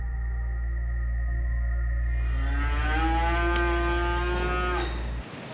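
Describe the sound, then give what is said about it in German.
Dairy cows in a barn at Triesdorf: one long, drawn-out moo that rises slightly then holds steady, over a constant low hum that cuts out near the end. “Zurück bei den Milchkühen in Triesdorf.”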